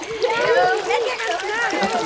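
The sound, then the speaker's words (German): Children splash their legs in pool water during a swimming lesson, sloshing and splattering beneath lively children's voices that stay loud throughout. “Und jetzt patscht mal alle ordentlich mit den Beinen im Wasser rum.”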